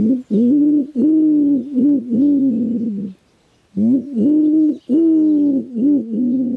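Common wood pigeon giving its cooing nest call, a series of low, hollow, rhythmic coos in two phrases separated by a short pause, loud and clear with nothing else around it.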